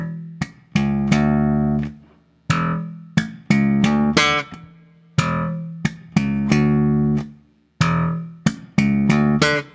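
A basic funk riff on electric bass, with the open fourth string plucked and then deadened by the fretting hand held around the fifth fret. Many syncopated low notes mix sustained tones with short muted stabs in a repeating pattern, played alone.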